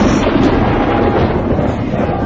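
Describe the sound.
Thunder rumbles in a loud, dense roar that holds steady for the whole stretch, with no clear breaks or separate cracks.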